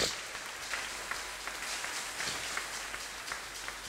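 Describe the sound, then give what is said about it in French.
Faint applause from a church audience after a French-language sermon, a soft, continuous patter of many hands that stays even for nearly four seconds. “Acclamons son nom. Merci.”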